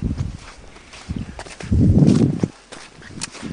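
Footsteps crunch through a creek wash cut by heavy rain and snowmelt. A few uneven steps are followed by a louder, rough scuffing stretch, then quieter steps again.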